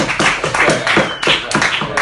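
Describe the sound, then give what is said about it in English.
A small group gives a round of applause: a few people clapping in quick, uneven bursts, with individual sharp hand claps clearly distinct rather than merged into a wash. “Okay, a round of applause.”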